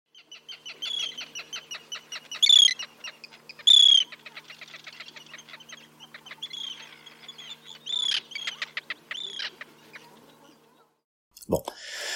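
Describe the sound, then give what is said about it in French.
An arctic tern colony at its nesting ground calls out with repeated harsh, high-pitched chirps and cries in uneven bursts, some louder squawks standing out over a busy chatter. “Mon totem au sein de Baleine sous Gravillon, c'est la sternartique.”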